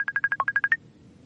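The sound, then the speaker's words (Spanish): A Facebook notification sound in a horror film about the internet: a rapid string of short, bright electronic beeps at one pitch, with a single lower beep partway through, stopping abruptly. “entra una notificación de Facebook.”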